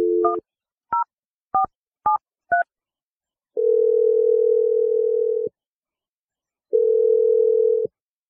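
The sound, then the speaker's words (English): Touch-tone telephone keypad beeps while a phone number is dialed: five short two-note beeps in an uneven rhythm, then two long, steady, loud tones separated by a pause. No voices. “let's just give her a call. We'll see what she has to say if she answers. So I'm going to dial Chelsea's number right now.”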